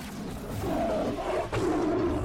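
A tiger roar sound effect: a loud, sustained growling roar that runs for about two seconds, with a brief break partway through, heard alone.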